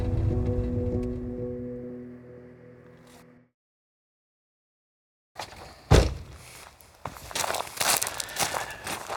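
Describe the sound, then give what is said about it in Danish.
Crunching footsteps on fine gravel in a large farm courtyard behind the fieldstone front wing of a four-winged farm near Grenå. They begin after a silent gap as many irregular, gritty steps, with one louder crunch standing out. “Det her er en lyd af en masse fin grus på en overraskende stor gårdsplads bag en kampestens længe, som er den forreste længe af en firlænget gård lige uden for Grenå.”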